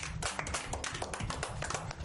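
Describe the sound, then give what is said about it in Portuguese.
Applause for a contestant after a correct quiz answer: dense, rapid hand claps form a steady, even wash for the whole stretch, fairly soft, with no talking over it. “Uma salva de palmas pra ele.”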